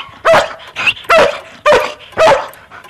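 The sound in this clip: A dog barks loudly in a quick, regular series of four sharp barks, with a shorter, softer yip between the first two. No voices are heard.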